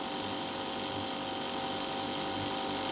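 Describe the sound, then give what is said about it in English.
Steady mechanical whirring and ticking from a model hot gas engine running forward on its own heat after its electric drive motor is switched off. The hum is continuous and fairly quiet, with no breaks. “This heat is turned into mechanical energy by switching off the electric motor. The machine now runs in the forward direction as a hot gas engine.”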